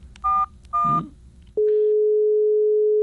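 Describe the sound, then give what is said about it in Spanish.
A telephone call is dialed: two short touch-tone beeps, then a single long, steady, pitched tone that sounds on alone to the end. “A ver, producción, vamos a marcar.”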